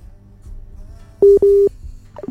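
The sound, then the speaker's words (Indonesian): Telephone dialing tones as a call is placed back to a listener: two steady electronic beeps in quick succession, each lasting a fraction of a second, over a quiet low hum. “Bisa dicoba kembali ya di teleponnya, di Sapa Malam. Masih ada 1 jam lagi nih pendengar ya. Saya coba kembali.”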